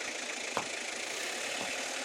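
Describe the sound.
Car engine idling with a steady, even mid-pitched rumble and hum that runs without a break, marked by one brief click early on.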